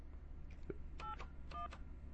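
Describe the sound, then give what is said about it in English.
Touch-tone keypad beeps as a telephone number is dialed on a live radio call. A few short dual-pitched tones are spaced apart, some faint and some clear, over a steady low hum. “All right, let me turn that down for a second and dial her number.”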